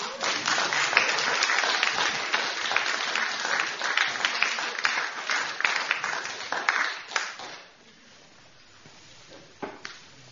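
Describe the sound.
Audience applause for a group of people from Sheffield: dense, steady clapping that holds for about seven seconds, then dies away quickly into near quiet.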